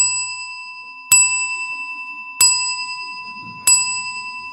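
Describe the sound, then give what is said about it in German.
A church tower bell striking midnight: three bright, ringing strikes evenly spaced about 1.3 seconds apart, each with a sharp onset and a slow fading decay, over a faint low rumble. “Bis die Kirchturm Mitternacht schlägt.”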